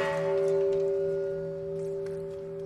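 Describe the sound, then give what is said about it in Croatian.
The Japanese Peace Bell at the United Nations rings, a deep resonant tone with steady humming partials that slowly fade, heard alone. “A svake godine na ovaj dan u Ujedinjenim nacijama se oglasi i Japansko zvono mira.”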